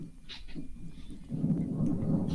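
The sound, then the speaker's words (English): Thunder rumbles low and faint, growing louder and heavier about halfway through and then rolling on steadily to the end. “Is it raining by you guys? No. I don't know if you heard the thundering”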